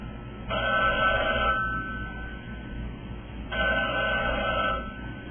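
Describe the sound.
A telephone rings in a home: two long, loud bursts of bright, steady ringing separated by a pause of about two seconds, with no voices over it.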